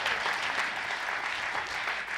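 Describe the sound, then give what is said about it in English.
Audience applause welcoming a panel at a Love Works weekend church gathering: dense, steady clapping from many hands, loud and continuous throughout without a break. “I want you to actually put your hands together and welcome our incredible panel today for our Love Works weekend.”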